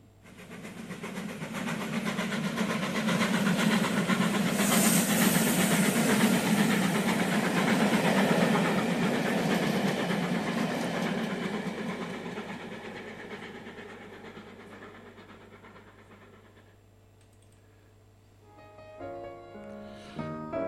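Train running sound effect: a dense, rumbling, clattering rail noise swells and holds steady, then fades away, followed by a few piano notes at the very end.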